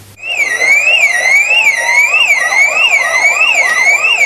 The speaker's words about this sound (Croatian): Zvuk alarma označio je početak pokazne vježbe evakuacije.